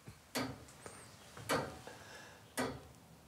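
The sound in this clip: Three loud, sharp ticks come from the mechanism of an old striking clock with a control dial. They fall slowly and evenly, about a second apart, over a faint steady background.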